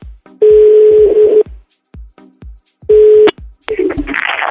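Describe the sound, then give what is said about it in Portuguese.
Phone number being dialed: two bursts of steady mid-pitched tone separated by a few sharp clicks, ending in a rough, noisy burst. “Vamos ligar pra Hanna e a Lígia vai passar um torote.”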